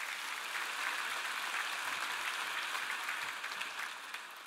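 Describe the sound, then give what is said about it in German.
Audience applause at a church sermon, a dense, steady wash of clapping that holds at an even level for several seconds with no talk over it. “Einen großen Applaus!”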